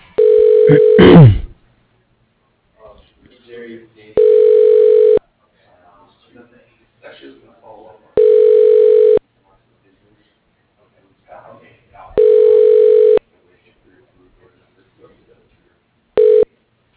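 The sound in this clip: Telephone ringing tone on the line as a call is transferred to an office extension: a steady, buzzy tone sounds in evenly spaced one-second bursts, four full pulses and the start of a fifth, after a short recorded voice prompt.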